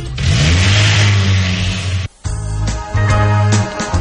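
A go-kart engine at Karting Calafat revs at full throttle with a loud, high buzzing roar that drops out sharply for a moment, then surges back in uneven revving bursts.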